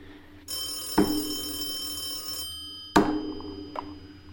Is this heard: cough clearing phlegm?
no

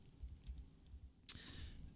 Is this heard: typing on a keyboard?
yes

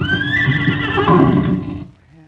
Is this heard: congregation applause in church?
no

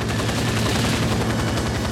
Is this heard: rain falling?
no

